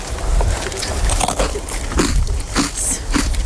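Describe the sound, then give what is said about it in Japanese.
Crunchy bites into an individually wrapped shiruko sand biscuit, carried as a snack while mountain climbing, give repeated loud, crisp crackling bursts with chewing in an irregular rhythm. “シルコサンド、 はい、これがですね、はい、本当にこう個包装になってるんで、うん、登山中にも高度食として”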